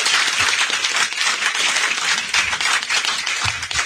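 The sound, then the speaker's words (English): Audience applause at a convention panel: a loud, dense wash of many hands clapping that holds steady for the whole stretch, with no single voice standing out. “Give yourselves a hand. Exactly. Give this man a hand.”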